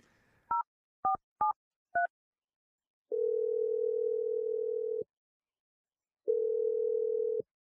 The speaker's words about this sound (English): Yeah, I'm dialing his number right now.